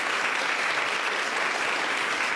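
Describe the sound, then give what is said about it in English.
Audience applause for a speaker at a literary reading: dense, even clapping from many hands, held at a steady level throughout with no voices on top. “A round of applause for Yirga.”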